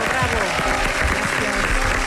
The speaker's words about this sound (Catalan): Un aplaudiment pel treball fet.